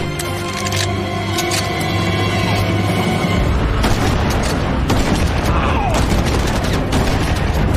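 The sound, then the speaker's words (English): A computer workstation blows up in an action film scene, with loud, dense booming and crackling bursts that carry on without a break. “Another workstation explodes”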